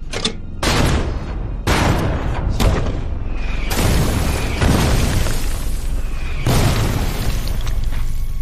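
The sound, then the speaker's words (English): A heavy artillery barrage pounds against German defenders in a dense series of loud booms and blasts. Roughly six or seven deep detonations crash over one another with rolling, crackling noise and no pauses in between. “At 10:30, the American artillery unleashes a heavy barrage on the German defenders.”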